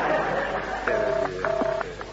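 A telephone ringing tone heard down the line during a call to a Whitehall exchange number: a double-ring pattern of two short, steady, buzzing tones of the same pitch, after a fainter earlier tone, over a hum on the line.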